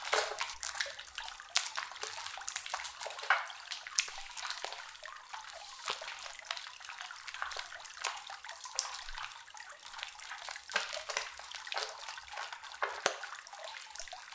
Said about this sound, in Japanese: まずはお体洗ってまいりますね